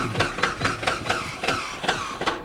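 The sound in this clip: Aircraft engine trying to start but failing: a regular series of loud chugging, coughing pulses as it cranks, evenly paced throughout with no catch into a running roar.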